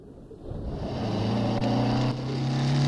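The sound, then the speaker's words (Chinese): A motorcycle being ridden gives off a steady, low engine drone that grows louder and rises slightly in pitch over a few seconds. “刘彪驾驶着摩托车来到了那片密林”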